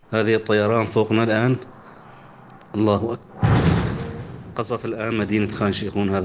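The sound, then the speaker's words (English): Airstrike explosion striking nearby at night: a sudden deep, rumbling boom that tails off over about a second, with people talking before and after it. “That's an airstrike that hit just close to him.”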